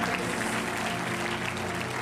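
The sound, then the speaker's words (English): Congregation clapping hands during a church service: dense, steady applause that fills the whole stretch at an even level, with a low tonal backing underneath. “Somebody clap your hands to the Lord.”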